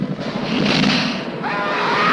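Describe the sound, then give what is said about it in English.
A cartoon dragon breathes fire: a loud, sustained roaring whoosh of rushing noise fills the whole clip. A faint tonal streak enters near the end. “The dragon breathes fire.”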